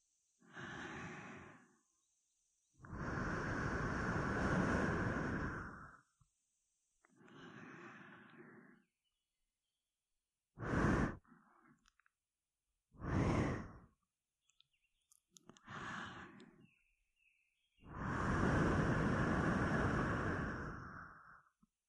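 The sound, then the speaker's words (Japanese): Breath is blown into the listener's ear as a string of soft, airy exhalations. Several long, whooshing breaths alternate with shorter puffs, separated by silent gaps, with no talk. “お主の耳に息を吹きかけてやろう。”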